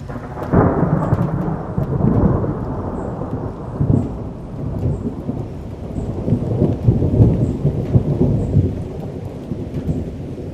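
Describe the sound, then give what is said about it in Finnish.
Rolling thunder in a thunderstorm, deep rumbles surging and fading over steady rain, loud and continuous with no voices. “kun taivas aukenee ja sinkoaa salamoita ja jyrinöitä päällesi pelottavalla voimalla”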